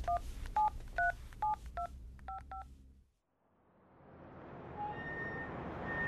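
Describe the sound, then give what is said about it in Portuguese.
Telephone keypad tones as a number is dialled to call a doctor: a quick, irregular run of short two-pitch beeps, then a brief silence before a low noise slowly swells. “Deixa-me ligar ao meu médico, o Dr. Zito.”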